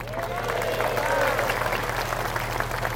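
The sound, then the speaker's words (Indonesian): Audience applause during an Islamic preacher's talk: dense, steady clapping throughout, with voices mixed in and a low steady hum underneath. “Kalian enak aja tepuk tangan.”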